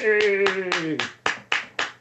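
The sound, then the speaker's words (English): Slow, evenly spaced hand claps, about eight in all, with a drawn-out voice calling over the first half before the claps continue alone. “Well, I can't believe you'd applaud something like that”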